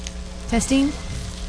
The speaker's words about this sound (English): It's so foamy in there. It's like a bubble bath in bacon juice. It's rendering all the fat out of the bacon.